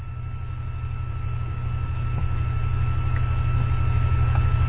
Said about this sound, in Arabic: صوت الطائرة يشوش، فلا قد لا يصل إلى الناس هذا التحذير.